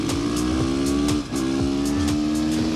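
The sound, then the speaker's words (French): A supermoto motorcycle engine revs hard on a wet track. Its steady buzzing note climbs in pitch, dips briefly at a gear change, then climbs again, loud and continuous with no voices. “Et le moteur fait un bruit vraiment sympa.”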